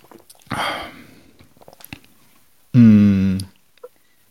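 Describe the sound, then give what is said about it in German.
A can of Sweet Lemon energy drink is opened with a short, fizzing hiss, followed by a few faint clicks and then a brief, loud voiced sound. “ich mache die Dose jetzt auf, ist die dritte Sorte, Sweet Lemon.”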